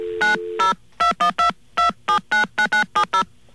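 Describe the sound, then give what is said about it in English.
Touch-tone telephone keypad tones dial an operator for a call into New York City. A low steady dial tone runs under the first two, then twelve short, crisp two-pitch beeps follow in an uneven rhythm. “Okay, we're going to call an operator now. Yeah, I think when you're getting operator assistance into New York City, you have to dial 0 plus 212.”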